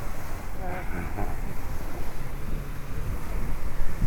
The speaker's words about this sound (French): Voilà, en radio on ne voit pas, mais il y a la mer d'un côté et puis tous les gens de l'autre.